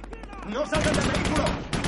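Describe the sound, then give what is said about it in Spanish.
Gunfire from a soldier shooting out of a vehicle's roof hatch: a short voice first, then a loud, dense burst of rapid shots that lasts to the end. “Un soldado asomado a la puerta del techo del vehículo dispara.”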